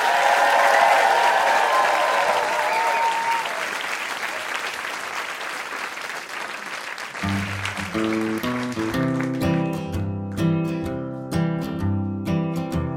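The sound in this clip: An audience bursts into loud applause with cheering. The clapping slowly thins and softens before music starts and carries on with a steady pulse.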